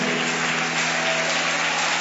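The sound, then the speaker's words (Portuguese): An audience in church applauds the Lord with a dense, continuous wash of many hands clapping, steady and fairly loud throughout, with no individual claps standing out. “Eu escuto as palmas, mas não escuto glória a Deus.”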